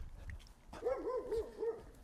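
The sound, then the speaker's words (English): A dog gives a short series of four high, tonal yelping barks or whines in quick succession, each with a rising-then-falling pitch, fairly loud against a quiet background. “Let's go and see what this dog is talking about.”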